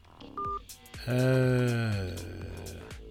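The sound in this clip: A brief touch-tone beep of a telephone number being dialed, followed by a longer, buzzy sustained tone that sags slightly in pitch before fading.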